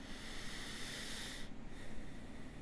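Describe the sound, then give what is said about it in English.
A person breathing slowly during a quiet reflective writing exercise, heard as a continuous, soft, breathy hiss with a faint snuffling texture and no talking. “And then I breathe.”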